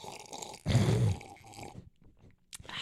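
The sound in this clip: Drinking and swallowing to wet the throat: a single loud, low, wet gulping burst of about half a second, followed by fainter mouth noises.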